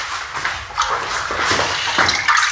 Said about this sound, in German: Ich werde mich jetzt mal waschen.